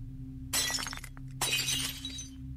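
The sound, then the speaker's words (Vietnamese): Glass shatters as a glass cabinet is smashed: two loud crashing bursts of breaking glass with tinkling debris between and after them, over a low steady hum. “Ông thầy bị ném văng ra, đập vào cái tủ kính gần đó đánh xoảng. Mọi thứ vỡ tan tành.”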